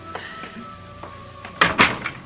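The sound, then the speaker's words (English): A door being opened, starting with a few light taps and knocks, then a louder burst of clunking and rattling near the end. “Let me get the door.”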